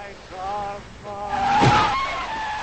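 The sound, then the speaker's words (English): A car approaching along a wet gravel road, its engine whine carrying steady tonal harmonics that swell louder midway, with a brief squeal-like burst at the loudest point. “The car approaches from the other direction.”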